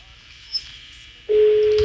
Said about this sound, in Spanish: Está sonando el teléfono.